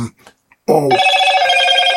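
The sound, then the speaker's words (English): A phone rings with a bright, steady electronic tone. It starts abruptly after a few faint vocal sounds and carries on loud and unbroken to the end. “this phone, I need to turn this phone down, man.”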